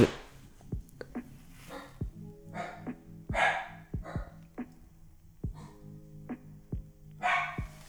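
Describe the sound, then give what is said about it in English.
A dog knocks things over: sharp knocks and thuds come at irregular intervals, about a dozen in all, with a few bark-like yips mixed in. The sounds are fairly faint, with no talk. “I left that in because I gotta explain myself. My fucking dog knocked over some shit.”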